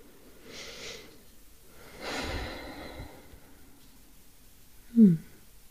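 Slow, deep breaths taken during a guided relaxation exercise: two faint, airy inhales and exhales, then a short, louder snort-like nasal breath near the end, in otherwise quiet surroundings.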